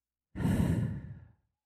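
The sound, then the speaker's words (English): One slow, deep breath out, a long airy exhale lasting about a second during a guided breathing exercise. It starts suddenly, is fairly loud and breathy, then fades away into silence. “In for 4, hold for 4, out for 6. In for 4, hold for 4, out for 6.”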